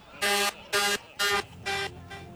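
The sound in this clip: Honking horn of a tractor-trailer truck: five short, blaring toots in an even rhythm, the first four loud and the last noticeably fainter, with no talk over them.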